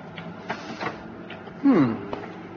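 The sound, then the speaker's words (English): Photocopier starting up and making a copy: light mechanical clicks and knocks, then a short, louder whirring sweep as the mechanism runs, with a few more clicks afterward. “you open this and put the paper in here. Then you press this button to start the machine and this button to get your copy.”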